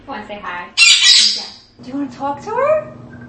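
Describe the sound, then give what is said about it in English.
A pet parrot gives one loud, harsh, high squawk lasting under a second, with people talking before and after it. “It's enough to make a lonely parrot bob its head with excitement.”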